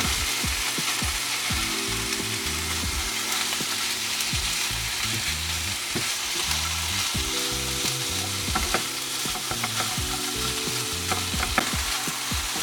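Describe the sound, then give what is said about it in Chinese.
Ground meat is stir-fried in a pan while making XO sauce fried instant noodles. A loud, steady sizzle runs throughout, broken by repeated scraping and stirring strokes, with faint music tones in the background. “稍微让它炒一下之后呢，我们就可以把我们的绞肉给放下去，然后也是让它炒一下。”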